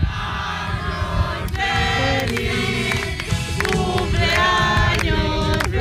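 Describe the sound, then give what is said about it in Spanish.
A group of friends sings the birthday song together in Spanish. The voices are loud and steady and stay level throughout. “Oye, pues cantarle el cumpleaños a toda España. Vamos a cantarle, venga, venga, vamos a cantar.”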